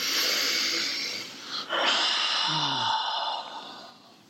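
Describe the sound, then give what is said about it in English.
A long, deep breath, a broad airy rush of air that holds steady, briefly dips, then fades out, heard alone without talk. “Let's take a deep breath.”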